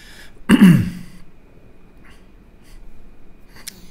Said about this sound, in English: I just made a noise came out of my throat that's never happened in all these years.